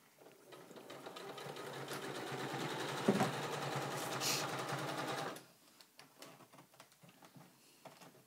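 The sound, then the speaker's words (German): A sewing machine stitches slowly over metallic fabric with a steady whirring, rattling hum for about five seconds, then stops sharply and leaves only faint, scattered handling noises. “ich weiß, dass meine Maschine das kann. Mhm. Deswegen kann ich da langsam drüber nähen, aber ich nähe da auch langsam drüber, weil ich habe sonst einfach Angst, dass mir die abbricht.”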